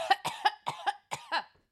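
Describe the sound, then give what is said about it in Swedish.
A woman coughing openly and unrestrained: seven short, sharp coughs in a quick, uneven series, fairly loud, with no speech around them. “Hon hostar som ett barn, ni vet, bara rakt ut med tungan ute.”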